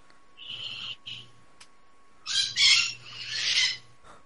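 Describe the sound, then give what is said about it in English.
A bird calls in several short bursts of high chirping notes, two brief calls and then a louder run of calls, over a faint steady low hum. “That bird. Shut up! That's the sound of Wakanda.”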